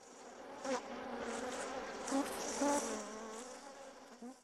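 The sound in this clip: Bugs buzz in a steady, thin drone with a few brief louder swells as they pass by.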